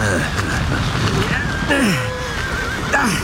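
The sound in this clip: A horse harnessed to a one-horse carriage whinnies with a shrill neigh that falls in pitch. A shorter whinny follows later over steady background noise.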